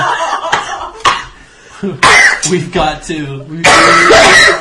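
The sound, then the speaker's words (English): A person coughs and clears their throat, choking on phlegm: several harsh, gravelly hacking bursts separated by short pauses, loud and rough. “No, I'm actually choking on my own phlegm.”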